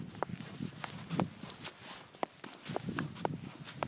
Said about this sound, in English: I'm walking along in thick snow and it's creaking. Listen.